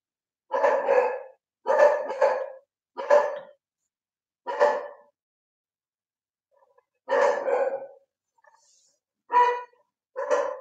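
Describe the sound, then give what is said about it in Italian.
A small dog barks in several separate, fairly drawn-out barks with silent gaps between them. The barks come in an uneven rhythm, some in quick pairs and others after longer pauses. “il mio cagnetto baia”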